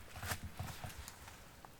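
Footsteps sound in a hallway: a few soft, low thuds of steps in an uneven cadence, fading to lighter taps over a quiet background.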